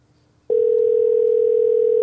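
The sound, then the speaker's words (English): An overseas telephone ringing tone: after a brief near-silence, a single loud, steady tone begins and holds one unbroken pitch to the end. “Oh, it sounds like an overseas ring.”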